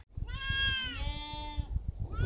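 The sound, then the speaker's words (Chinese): A sheep of a grassland breed gives a loud, drawn-out bleat with a wavering, nasal tone. The bleat carries on almost without a break, over a low rumble and soft thumps. “草坡羊是草原上最具特色的羊种之一，更是羊群家族里名副其实的健身教练”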